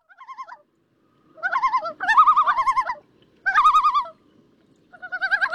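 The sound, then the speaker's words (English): Tremolo call of the common loon, a wavering, yodelling trill repeated in several separate bursts with short silences between, clear and alone against quiet surroundings. “If you visit the Adirondacks, you know that's the call of the common loon.”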